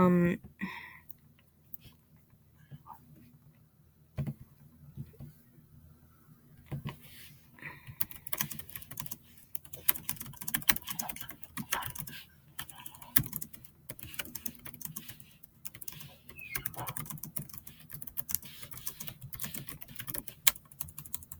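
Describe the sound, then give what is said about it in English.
Typing on a computer keyboard: rapid, uneven keystroke clicks run through the whole clip, growing denser and louder partway through. “typing. Typing is fun.”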